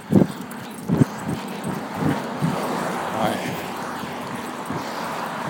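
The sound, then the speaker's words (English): Running footsteps on a sidewalk beside a big empty field, a steady series of soft, rhythmic thuds under constant wind noise. “Sun's starting to go down. It's really pretty right here. Like, for example, I'm running across on a sidewalk.”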